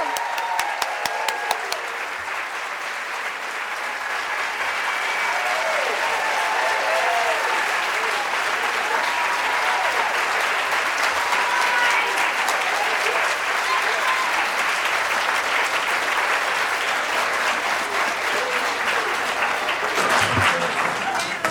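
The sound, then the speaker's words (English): A standing ovation for Sally Field at the Free Library of Philadelphia: a few sharp claps open into long, dense, steady applause that fills the whole stretch, briefly dipping near the end. “Does that ever get old, standing ovations?”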